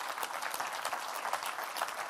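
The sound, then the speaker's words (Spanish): Congregation applause in a church service, many hands clapping in a thick, continuous patter at moderate loudness, with no break from start to end. “¿Cuántos alaban a Dios? Dele un aplauso a Cristo.”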